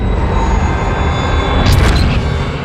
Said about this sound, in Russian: Следует взрыв. Ударными волнами город разносит в прах.